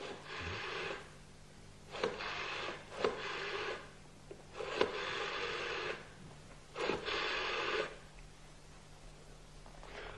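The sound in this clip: Telephone ringing while a call is placed to an office: a few buzzy ring bursts, each about a second long and separated by short pauses, fairly faint and heard alone without talk.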